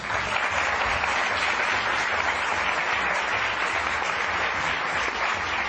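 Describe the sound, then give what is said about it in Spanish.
Steady crowd applause, dense and even clapping that runs without a break for the whole stretch, with no voices heard over it. “Nos hemos aplaudido todos”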